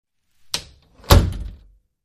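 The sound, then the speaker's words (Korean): A door kicked shut with a foot: a light knock, then a heavier, louder thud that fades over about half a second, with nothing else heard. “그녀는 발로 문을 닫았다.”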